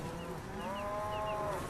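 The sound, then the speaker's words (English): A cow lowing: one drawn-out, steady moo holds for over a second, fairly faint and on its own with no voices. “I'm just saying cows. There they are.”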